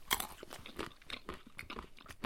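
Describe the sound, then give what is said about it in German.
Crunchy chewing of a hazelnut kernel, freshly cracked with a hammer: many sharp, dry crunches in an uneven rhythm, moderately loud, with no talking. “Und jetzt habe ich einen Nusskern.”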